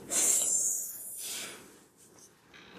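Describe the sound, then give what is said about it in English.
A deep breath drawn in through the nose during a guided breathing exercise: a quiet, airy hiss that swells and fades over about a second and a half. “let's take a deep healing cleansing breath in through the nose.”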